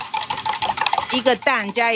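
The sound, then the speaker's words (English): Clattering and stirring kitchen noises come from preparing danbing, a Taiwanese egg breakfast crepe, in a restaurant kitchen, with a voice speaking near the end. “A lot of customers order danbing. Why don't I make you one?”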